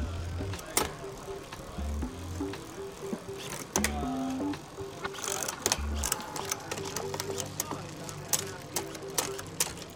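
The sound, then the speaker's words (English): Mechanical clicks and chain whir from an FSA bicycle groupset shifting gears. Several crisp shift clicks and ratcheting ticks sit over a steady chain rattle and low tonal hums. “Well, let's hear the FSA group. Give it a couple shifts.”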